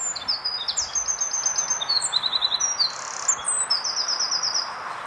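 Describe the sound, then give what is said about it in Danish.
Wren song played back from a recording: rapid, high-pitched trills and chirps in repeated bursts fill the whole clip, loud and clear with no talk. “Men altså, det er jo også en forårsbebuder, og foråret er jo kommet, men hvorfor er gærsmutten så ikke?”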